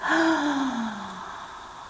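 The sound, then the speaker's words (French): A deep inhalation fills the lungs after a full exhale. One long, gasp-like breath in carries a faint voiced tone that slowly drops in pitch and fades over about two seconds. “je laisse l'air venir et déployer librement mes poumons.”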